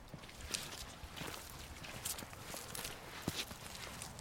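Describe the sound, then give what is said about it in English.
Footsteps of people walking on a trail at Ring Mountain in California: soft, irregular steps with occasional light scuffs and clicks, faint and alone. “Okay, so now let's go to Ring Mountain and go on a little walk.”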